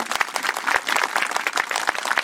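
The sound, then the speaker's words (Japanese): Audience applause at the opening ceremony of a canoe touring festival on the Teshio River in Hokkaido, a dense, steady wash of many hands clapping at an even level throughout the short stretch. “拍手”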